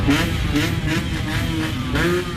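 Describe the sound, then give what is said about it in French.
Scooters rev loudly in an outdoor crowd of young people gathered for a presidential election, producing a sustained, uneven engine roar with repeated surges. “en profitent pour sortir entre copains et faire bruyamment pétarder leurs scooters”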